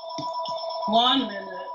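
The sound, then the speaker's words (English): A house phone rings with steady electronic ringing tones while people talk over it. “Our phones, house phones are crazy. Don't invest in a house phone.”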